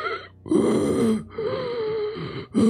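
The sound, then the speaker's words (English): A voice imitating the hoarse, painful wheezing of an ailing professor sitting up in a sickbed: a few drawn-out, strained, groaning breaths with rasping gasps between them. “like wheezing, extraordinarily hoarse and painful.”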